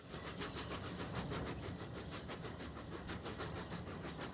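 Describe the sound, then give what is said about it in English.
A dark green steam locomotive pulls a train past a field on a line running north toward Kidderminster, giving a faint, low rumble with a steady, repeating rhythmic beat from start to finish. “Steam rises from the chimney of the dark green locomotive, which trails then dissipates in the air as the train passes a field dotted with round hay bales.”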